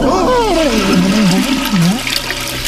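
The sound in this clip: A toilet flush used as a comic sound effect: a loud, rushing, swirling gush of water with warbling gurgle tones that sweep downward and wobble before the flow thins out.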